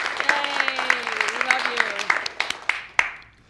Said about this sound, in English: Thanks so much to everyone watching and listening, and a special thanks to our in-studio audience. Give yourselves a hand for coming.